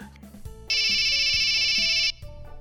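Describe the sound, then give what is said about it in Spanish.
A phone rings in a single loud electronic burst lasting just over a second. Quieter background sounds come before and after the ring. “¿Me estás llamando?”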